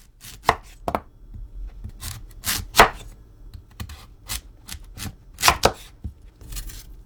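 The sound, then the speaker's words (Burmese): Knife slicing sweet potatoes into rings about two centimeters thick, producing many crisp, irregularly spaced chopping knocks, some louder and sharper than others, with no voices. “ကစုံးဥတွေကို2စင်တီမီတာအထူအကွင်းလိုက်လှီးပါ”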